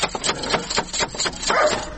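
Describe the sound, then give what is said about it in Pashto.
A dog barks at a house while someone waits outside to knock on the door again: a run of many sharp, loud barks over constant noisy background. “دا څه بد سپی لري، ته ودرېږه چې بیا دروازه ور وټکوم.”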